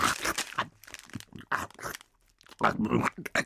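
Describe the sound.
An old biscuit from a cookie roll is crunched and chewed: a series of loud, crisp bites and crumbly chewing bursts separated by brief pauses, with a longer gap before a final busy stretch of crunching.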